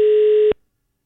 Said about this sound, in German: Wir rufen jetzt an.